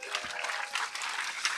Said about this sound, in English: We've got Fear and Greed live on stage now. Give them a round of applause.